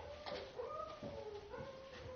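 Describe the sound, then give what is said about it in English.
A dog whimpers and howls outside in a few drawn-out, high, wavering cries that rise and fall, fairly faint throughout. “There's a dog out there that's really wanting to be saved. From the other dog.”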